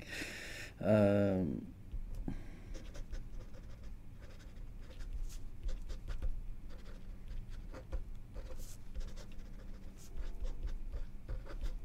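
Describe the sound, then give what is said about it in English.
A pen scratches on paper as someone writes down a thought, leaving faint, scattered strokes and small taps that come and go irregularly. “Writing down a thought of my own.”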